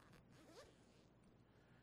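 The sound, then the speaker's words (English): A zipper on a small controller carry bag gives a brief, quiet rasping zip, a short pull or two of the slider heard alone. “my 8-bit Do SN30 and SF30 Pro controllers, which I have in nice little carry bags, which have a nice zipper here.”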